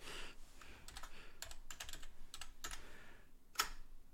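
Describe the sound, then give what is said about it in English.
Someone types on a computer keyboard in a fast, irregular run of many faint key clicks, with one sharper tap near the end. “I just typed it like four times.”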